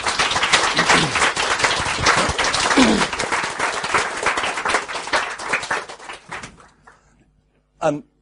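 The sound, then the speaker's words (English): Audience applause welcoming speakers at a talk event, dense clapping from many hands that gradually thins and fades out after about six and a half seconds. A short burst of voice follows the quiet gap. “So please give them a great welcoming hand.”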